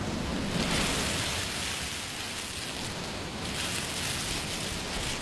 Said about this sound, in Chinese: 把海螺放在耳边，就能听到大海的声音。你听，